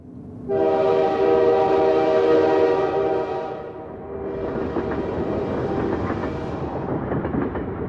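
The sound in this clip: A speeding train sounds a long, loud horn blast lasting several seconds. A steady, rattling rumble of the rolling train follows.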